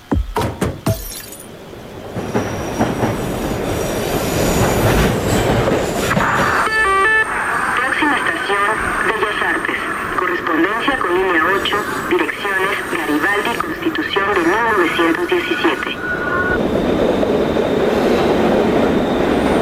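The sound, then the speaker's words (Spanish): A Mexico City metro train runs with a loud, steady rumble throughout. High metallic squealing tones ring out over the noise through the long middle stretch, then fade near the end. “El metro de la Ciudad de México no solo es un transporte, es una experiencia sonora.”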